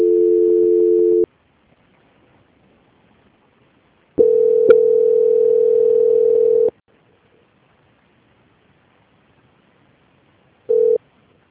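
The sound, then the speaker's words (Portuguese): Telephone line tones during a call transfer: a short tone, a silent pause, a longer steady tone of about two and a half seconds, more silence, then a brief final blip. No voices. “aguarde em linha, que vou transferir o contato para o controle de qualidade, que dará continuidade na sua contratação. Só um minutinho, tá bom? Ok. Transferência.”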